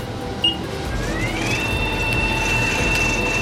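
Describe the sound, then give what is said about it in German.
A robot arm in an automated factory moves a box of half-finished computer chips to the next machine. A steady mechanical hum carries a motor whine that climbs in pitch and then holds, with a brief tick early on. “Das sieht schon ziemlich cool aus, wenn ein Roboterarm eine Kiste mit halbfertigen Computerchips greift und sie dann blitzschnell zur nächsten Maschine fährt, wo sie dann weiterverarbeitet werden.”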